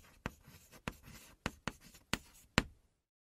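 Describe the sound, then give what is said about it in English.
Chalk writes on a chalkboard in about six sharp, quiet strokes at an uneven, unhurried pace, each a brief scratchy tap followed by a soft drag, ending in silence. “I got to make that a little bit louder. It just sounds like, yeah, someone writing on the chalkboard.”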